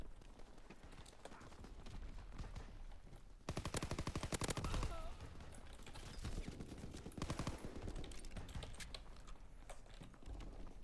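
Gunfire in a shooter video game: a rapid, dense automatic burst in the middle, with quieter clattering shots and game noise before and after it, all at low level.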